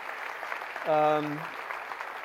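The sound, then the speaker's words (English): An audience cheers together, a single sustained shout of about half a second that rises sharply at its start, standing out over a steady crowd murmur with some clapping. “So let's do a big yay, God, for how God's using us right now in Piedras Negras, Mexico,”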